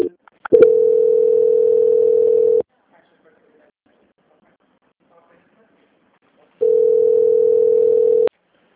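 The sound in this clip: A telephone call-transfer tone on a bank customer-service line: a steady, low-pitched hum lasting about two seconds, then silence, then the same tone again for about two seconds.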